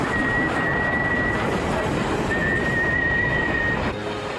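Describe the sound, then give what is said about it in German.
An intercity train pulls into a station platform with a constant rumbling roar. A thin, high squeal runs through it in two long stretches before the noise eases off at the end. “Zurücktreten auf Gleis 92,6. Pünktlich wie jeden Sonntag um 21 Uhr fährt der Intercity Pythagoras ein.”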